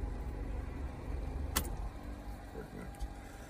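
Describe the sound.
Car engine idling to keep the battery charged, a faint, steady low rumble broken once by a brief sharp click partway through.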